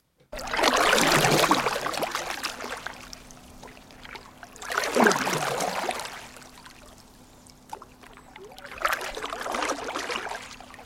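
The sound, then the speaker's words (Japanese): A stand-up paddleboard is paddled across the water of Lake Kizaki. Three slow, evenly spaced paddle strokes each swell into a watery swish and trickle, then fade, with softer dripping between them. “これ木崎湖の水面をパドルで漕いでる音なんです。”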